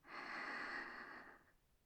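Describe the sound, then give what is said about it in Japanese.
A deep breath drawn in slowly: one soft, airy hiss that holds steady for about a second and a half, then fades, quiet and alone. “何って、深呼吸。呼吸は大事だぞ。吸って、”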